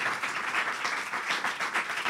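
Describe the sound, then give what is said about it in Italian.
Audience applause fills the whole short stretch as a steady, dense patter of many hands clapping at an even loudness. “Fate un applauso se volete.”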